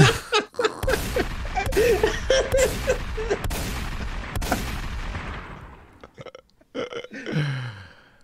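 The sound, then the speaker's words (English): Gunshot sound effects, several sharp, loud bangs spread over a busy, rumbling mix, followed by scattered quieter bursts near the end. “Biden said, shots fired. Biden said, your move. Put the gun. Give Biden some gunshots.”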